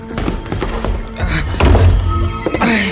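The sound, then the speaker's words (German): A door being opened with heavy thunks and thuds, a dense clattering bustle of bumps and knocks running through the whole moment, loud and busy rather than clean. “Und jetzt los! Tür auf!”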